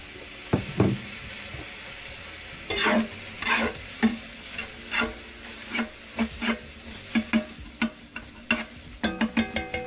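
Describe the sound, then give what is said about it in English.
Vegetables stir-frying in a shallow pan with soy sauce give a steady sizzling hiss. Irregular sharp scrapes and clacks of stirring cut through it and grow quicker and denser toward the end. “Shouldn't make the pan too deep, because then how's it gonna cook? And then, of course, the magic of soy sauce.”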